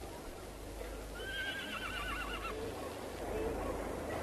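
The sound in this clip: A horse neighs in a single wavering, quavering whinny that rises clearly above a steady background hiss, with no talk over it.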